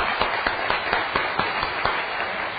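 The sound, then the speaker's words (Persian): An audience claps for itself: a wash of applause with a regular, even beat of louder claps running through it. “برای خودتون دست بزنید”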